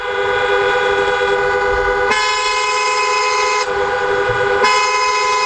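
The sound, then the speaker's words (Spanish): Car horns honk amid queued traffic at the Tarajal border crossing between Ceuta and Morocco. Loud, sustained, overlapping blasts shift in pitch a few times, sounding over a low rumble of vehicles. “este es el sonido de la frontera del Tarajal a esta hora.”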